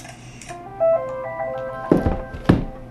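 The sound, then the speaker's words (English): Camera shutter button pressed in shoot mode to take a picture: a short run of electronic beeps, then two distinct clunking clicks about half a second apart, with no voices. “I press it once for shoot mode. I'm going to press it again.”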